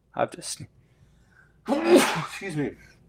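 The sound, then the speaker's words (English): A single human sneeze bursts out sharply near the start, then after a short pause a voice follows, loud and close. “I knew I had to sneeze. You know, you can kind of feel a sneeze coming on”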